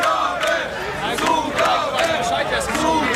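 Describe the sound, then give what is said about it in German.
An audience cheers and shouts loudly, calling for an encore after a live performance. Many voices blend into a continuous roar, with chant-like cries rising and falling throughout. “Okay, es wird eine Zugabe gefordert. Eine Zugabe, wie sieht's aus?”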